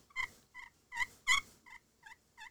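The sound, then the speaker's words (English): Soft turkey yelps from a slate call that is not scratched up, played with a light touch: seven short, high, quiet notes, each standing alone with pauses between. “Oh, I'm doing my light calls with this slate.”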